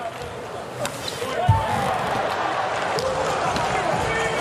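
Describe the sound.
A volleyball serve in a Poland versus Ukraine match: one dull, sharp hit stands out under steady crowd noise while commentators talk.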